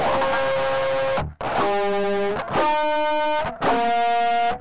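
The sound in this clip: Electric guitar pinch harmonics through heavy distortion in a nu-metal style: four loud, buzzy sustained notes, each held about a second, separated by brief gaps, with no voices.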